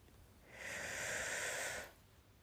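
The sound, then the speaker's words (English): A deep breath is drawn in through the nose or mouth as a soft, airy hiss that swells, holds for about a second, then fades out, faint and alone. “I just want to start this episode off firstly by taking a big, deep breath. Breathe in”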